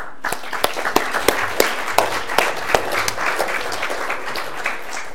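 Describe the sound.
An audience applauds to welcome a speaker: steady, moderately loud clapping, with individual hand claps standing out against the sustained patter.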